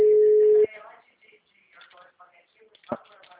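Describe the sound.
Ringback tone of an outgoing telephone call: a steady, loud, low-pitched tone that cuts off abruptly, followed by faint talking and a brief knock or click.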